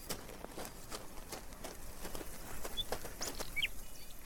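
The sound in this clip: A magpie flaps its wings and flies off from beneath a tree: steady, repeated soft whooshing wingbeats, with a brief high chirp near the end.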